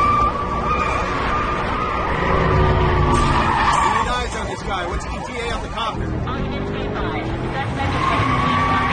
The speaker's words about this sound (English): He skids, then sharply turns and darts down another street.